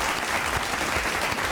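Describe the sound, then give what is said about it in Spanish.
An audience applauds, a dense, steady wash of clapping hands at even loudness with no talk over it. “Me uno a esos aplausos. Dios mío, qué aplauso”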